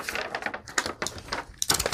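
Scissors cutting through a brown paper bag saved as craft material, giving a quiet, continuous run of crisp snips and papery crinkles.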